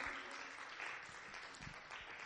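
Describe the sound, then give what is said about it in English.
Hand clapping of praise from a church audience: a brief, soft, steady patter of many hands lasting about two seconds. “If you could give God a hand clap of praise.”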